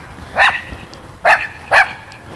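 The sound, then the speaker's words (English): A dog barks three sharp times: a single bark, a pause, then two barks close together, each loud and clear over a quiet background. “Easy dog, easy.”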